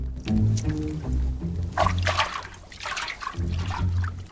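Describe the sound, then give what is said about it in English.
Water heated by a fire is poured into a tin bath: a few loud bursts of splashing, gurgling liquid separated by short pauses, with steady low tones underneath. “She pours in water heated by the fire”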